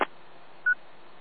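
A single short, steady electronic beep, a radio call tone sent over the channel, sounds against a constant band-limited hiss, preceded by a brief click at the start.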